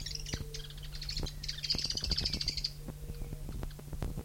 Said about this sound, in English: three birds present